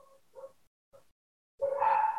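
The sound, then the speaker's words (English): Dogs barking in the background: a few short, faint yips and barks with pauses between them, then a longer, louder whining bark that fills the last stretch. “sorry if you hear barking dogs in the background.”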